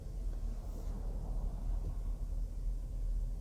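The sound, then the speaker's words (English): Steady, low traffic rumble runs through the whole clip as one continuous wash of engine noise, with no single vehicle standing out and no talk. “I got distracted. There's a bunch of traffic.”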